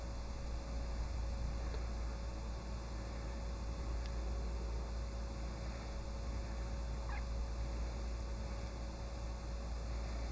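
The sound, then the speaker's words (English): Chicken clucking faintly, with a few brief, scattered calls over a steady low hiss and hum. “And here's my chicken, and also my wife.”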